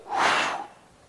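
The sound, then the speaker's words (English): A voice imitates breathing into nostrils with a single breathy rush of air that swells and then fades to near silence within about half a second. “he breathed into his nostrils the breath of life, and man became a living soul”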